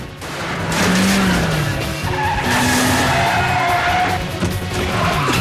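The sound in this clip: A car tears along at high speed with tires skidding and squealing, chased by a fleet of Mercedes and scraping through very narrow gaps. A loud, continuous roar carries sustained squeal tones throughout.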